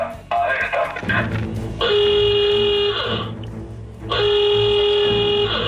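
An electronic alarm effect on a radio station blares as two long, loud buzzing tones rich in harmonics, separated by a short break, over a noisy bed of sound.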